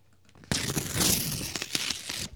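An envelope is opened: paper crinkles and tears in a sudden loud burst of rustling, followed by a few sharp crunches and crackles that last about two seconds.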